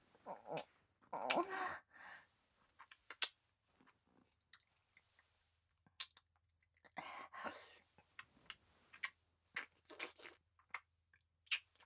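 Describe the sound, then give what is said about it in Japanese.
Wet licking and smacking mouth sounds in irregular bursts, some louder and denser, separated by quiet gaps, with no talking. “頑張って上手に舐めますね。では、舐めていきます。”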